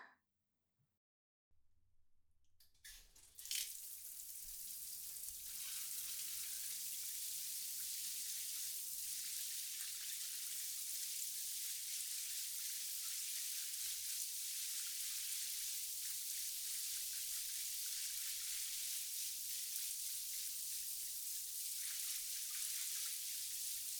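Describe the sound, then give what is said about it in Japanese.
Running water rinsing someone's back during a wash, a continuous soft hiss of spraying water that starts after a brief silence, swells over a few seconds, then holds steady and even. “ほら、背中向けて流しますよ。”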